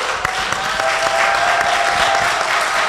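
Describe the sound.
A live studio audience applauds during a show, with dense, loud, steady clapping that holds at an even level throughout.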